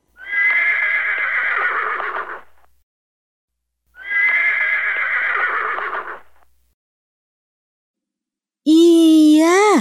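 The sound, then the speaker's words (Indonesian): A horse neighs twice: two loud, shrill whinnies of about two and a half seconds each, separated by silence. A brief, different warbling tone starts right at the end. “Itu adalah suara ringkik kuda.”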